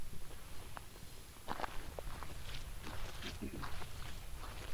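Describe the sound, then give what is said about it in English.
Footsteps of two people walking, not running, down a road during a 135-mile race: faint, irregular steps that are soft and scattered against low background noise. “the two people who just passed us were not running. They're walking. They're just walking down the road.”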